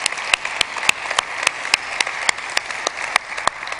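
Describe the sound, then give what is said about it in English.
Sparse, scattered hand claps from a church audience applauding the online audience, with sharp individual claps arriving at fairly even intervals over a soft, hissy background. “For those of you in the room, would you please give a big hand to our online television audience?”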